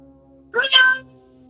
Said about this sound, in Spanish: Él tiene un gato de verdad. Sí, ¿eso es un gato de veras, compadre?